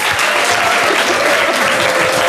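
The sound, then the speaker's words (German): Dense, loud audience applause greets the first guest of an evening TV talk show in a rooftop lounge. The clapping stays thick and even from start to finish. “Ich freue mich enorm und bitte um einen donnernden Applaus für unseren ersten Gast heute Abend, Oliver Mommsen.”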